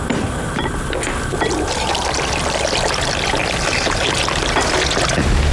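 Water gushes steadily from a pipe carrying mountain spring water down to a reservoir, a loud continuous rushing and splashing that stays even throughout, with no talk.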